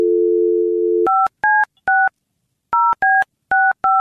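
Telephone dial tone sounds steadily for about a second, then gives way to seven crisp touch-tone dialing beeps in two quick clusters, each beep a short, even, two-tone chirp with brief gaps.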